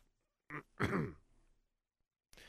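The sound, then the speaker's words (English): A single throat clearing, a short rough rasp that is fairly loud against near silence. “Jim cleared his throat.”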